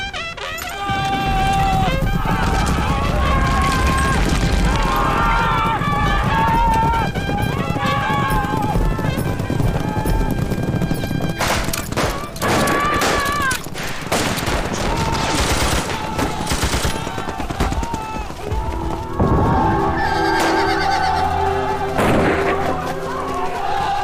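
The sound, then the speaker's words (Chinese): Cavalry horses charge into a battle with bandits, their galloping hoofbeats mixed with heavy bursts of rapid gunfire and shouting voices in a long, loud, chaotic stretch. “我们现在已经在毛副团长的人已经跟后车的土匪接上火了，命令骑兵立即出击。”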